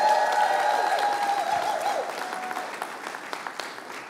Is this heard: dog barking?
no